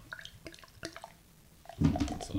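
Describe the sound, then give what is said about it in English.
Beer poured out for a group, a few small clicks and taps followed by a louder, steady splashing gush of liquid in the final second. “So I'm going to pour this out for you guys”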